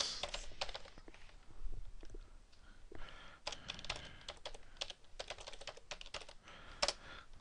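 Faint, quick clicking of typing on a computer keyboard while entering code, many irregular keystrokes in uneven bursts with no voice over them.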